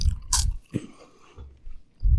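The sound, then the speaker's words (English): Crunchy bites into a Voortman chocolate-filled wafer cookie, with two sharp crackling crunches followed by soft, muffled chewing. The chewing keeps going faintly between the crunches, with no talking. “They look like your normal Voortman cookie with the chocolate in the middle. They taste like magic.”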